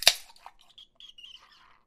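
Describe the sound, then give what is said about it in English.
A can of Guinness beer cracks open with one sharp, bright click. Brief sputtering fizz follows, then a thin, high-pitched hissing whine that wavers and fades out. “This is what happens when you open a can of Guinness.”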